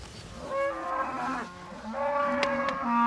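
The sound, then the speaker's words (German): Cattle lowing as calves are separated from their mother cows: two long, drawn-out moos with overlapping calls, fairly faint and harmonic, rising and fading in turn. “Die Kälber werden von den Mutterkühen getrennt. Das gibt Alarm.”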